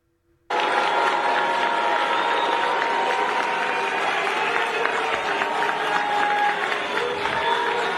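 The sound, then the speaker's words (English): A crowd boos and jeers at a ceremony held in a church, a dense, steady roar of many voices that starts abruptly after a brief quiet moment and stays loud and unbroken to the end. “This is the sound of the ceremony. The people who are booing, you'll hear, and then chanting Trump, Trump, Trump.”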